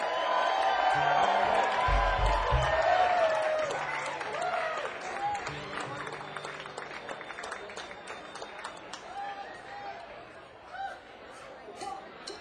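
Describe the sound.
A crowd applauds and cheers to welcome Tim Carbone at the Stone Pony. Loud clapping mixes with whoops, whistles and chatter, then slowly tapers off.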